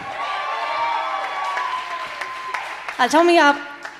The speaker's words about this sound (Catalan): Un aplaudiment, sisplau, pel Marc Casanovas a la guitarra